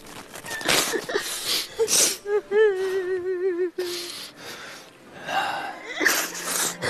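A mother crying, with gasping, snorting breaths and a broken, wavering sobbing wail in the middle, then further ragged breathing and sobs.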